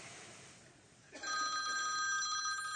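A telephone rings with a bright electronic warble that begins about a second in, after faint hiss, and continues steadily to the end.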